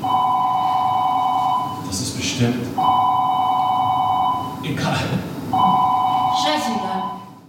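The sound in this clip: A telephone rings in a scene from a theatre production, with three long electronic rings in a steady, high, warbling tone. Voices talk in the short gaps between the rings.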